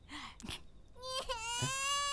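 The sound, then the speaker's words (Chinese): A baby cries after wetting its diaper. A faint, brief whimper leads into a sustained, quiet wail with strong, clear harmonics that continues to the end. “你怎么哭了？”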